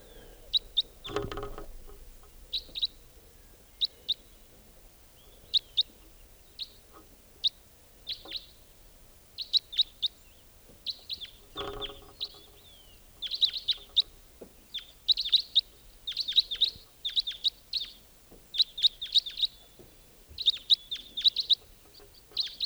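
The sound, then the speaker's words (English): White-winged crossbill flight calls from a wild bird flying over in the early morning: many short, high, clipped chirps in quick irregular bursts, with two brief low thumps early on. “Wild white-winged crossbill there. Yeah. Recording. Just a few minutes ago, a white-winged crossbill flew over.”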